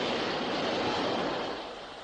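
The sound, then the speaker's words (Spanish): Subway train passing beneath a street grate: a dense, steady rumbling roar that eases slightly toward the end. “¿Nota la brisa del metro? ¡Oh! ¡Qué sensación!”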